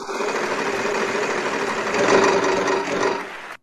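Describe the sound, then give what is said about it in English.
A game prize wheel spins with a rapid, steady clatter of clicks that runs for about three and a half seconds, swells slightly near the end, then cuts off as the wheel stops. “So let's spin. Here we go. Let's spin that wheel for Wheel of Fortunes.”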